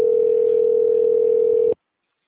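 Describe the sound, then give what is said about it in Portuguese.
A steady, unbroken telephone tone plays alone while a call is being transferred, holding one pitch for under two seconds before cutting off abruptly into silence. “Por favor, aguarde. Estamos transferindo sua chamada para um de nossos atendentes.”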